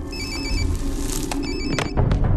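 A telephone rings in two short, bright electronic bursts separated by a pause, set against dense, loud background noise.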